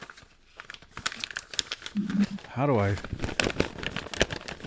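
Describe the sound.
A taped package being opened, with busy crinkling and tearing of wrapping and a brief stretch of voice partway through.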